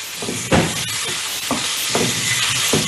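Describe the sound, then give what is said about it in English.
Red chili, mango powder, cumin, mustard seed and salt are stirred in a cooking pot: repeated scraping strokes at an uneven rhythm over a steady hiss. “mango powder, cumin, mustard seed, and salt. And I'm putting all of that in. And then I stir it.”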